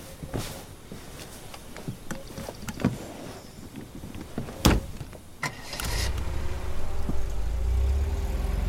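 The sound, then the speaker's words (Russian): A convertible car starts to pull away: a few scattered clicks and knocks come first, then a steady low engine rumble swells and holds loud to the end. “Кабриолет начинает движение.”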